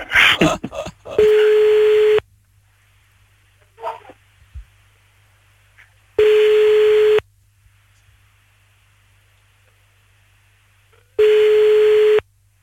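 A French telephone ringback tone sounds while calling back: three long, steady mid-pitched beeps separated by silent gaps, preceded by a brief jumble of sound at the start.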